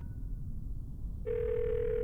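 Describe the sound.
A phone dials voicemail on speakerphone. Low hiss comes first, then a steady electronic tone starts partway through and holds unbroken to the end.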